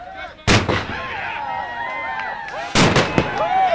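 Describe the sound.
Cannon fire from an old-time pirate tall ship at Carillon Point: two loud, sharp blasts about two seconds apart, each followed by ringing noise, with voices heard in between.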